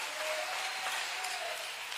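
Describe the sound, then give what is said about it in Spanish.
Applause from a church audience: dense, steady clapping that holds at an even loudness for about two seconds, with no distinct talk over it. “Le damos un aplauso a Él.”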